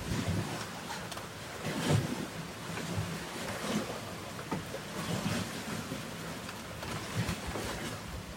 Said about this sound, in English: Yourself be held and cleansed, rejuvenated by the healing sounds of water.